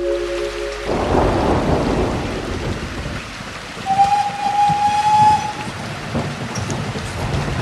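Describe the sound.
Thunder rumbles through heavy rain and wind in a night storm at a railway station. A deep, rolling roar bursts in after a quiet start and stays loud over a constant wash of rain, with no voices.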